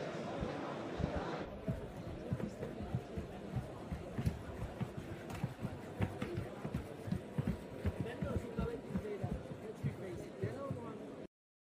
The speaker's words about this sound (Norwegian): Skal vi se hvordan den går i trapp? Ja, det kan vi gjøre. Så det, det trenger ikke styre noe som helst. Jeg bare sier at det skal gå opp tilbake på plassen sin.